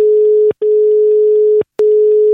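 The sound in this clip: Steady telephone tone on a line while a call is placed. The tone is interrupted twice by brief clicks and short gaps, then resumes. No voices are heard.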